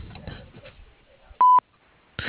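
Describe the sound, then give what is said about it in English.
A single short electronic voicemail beep signals the start of message recording. It is a steady, clear tone lasting about a fifth of a second, coming just after a voice finishes speaking. “if you'd like to leave a message, you can do so after the beep”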